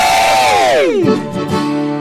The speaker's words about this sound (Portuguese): É o seguinte, é uma vaia pro passado que nós não queremos mais que volte. Não quer que volte nunca mais.